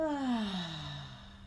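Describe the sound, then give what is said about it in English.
A deep breath in and out during a slow relaxation exercise, released as a single soft, drawn-out sigh whose voiced tone falls in pitch as it trails away. “Deep breath in and out.”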